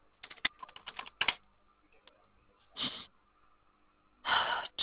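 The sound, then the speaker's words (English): Faint clicking of typing on a computer keyboard: a rapid flurry of keystrokes, a quiet pause, then two short, dense bursts of key presses. “Hold, my computer is being really slow. I'm going to switch out so I can type.”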